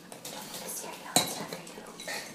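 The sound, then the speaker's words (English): Metal cutlery, a spoon and a knife, clinking: one sharp, bright clink stands out amid soft scraping and handling noise, all faint. “It was really the spoon and the knife that had to have the right feel. Oh, a knife has to have the right weight to it.”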